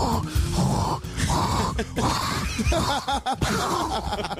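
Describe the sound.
A human voice imitates loud snoring with rough, rasping snorts and groaning breaths that rise and fall unevenly over several seconds.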